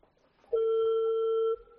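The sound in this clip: Ringback tone on an outgoing phone call: a single steady, mid-pitched tone lasting about one second, clear and alone, with faint background noise before and after.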